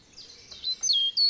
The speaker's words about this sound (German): Es riecht nach Wald, die Vögel singen ihr Lied, über den Köpfen rauschen die Blätter der alten Buchen und Linden.